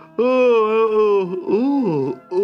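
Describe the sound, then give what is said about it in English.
A voice acting out a tremendous yawn, loud and drawn out, holding a steady pitch, then dipping and rising again in the second half before a short breath at the end. “Then Rat said, with a tremendous yawn,”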